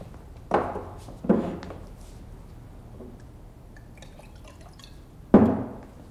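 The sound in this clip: Water poured into a glass, heard as a few short splashing bursts separated by quiet pauses, each fading quickly, with the last burst the loudest; no talk over it.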